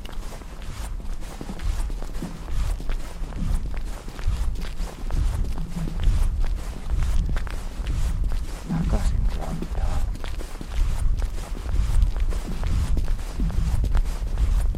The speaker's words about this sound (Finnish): Mutta kun ukko kävelee täällä, niin kyllä se tällainenkin paino sitten laittaa jäätä ääntelemään.